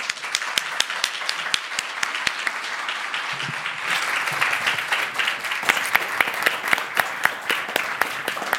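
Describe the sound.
Warm applause from a lecture audience welcoming the speaker, with dense, sustained clapping that swells after a few seconds and stays loud throughout.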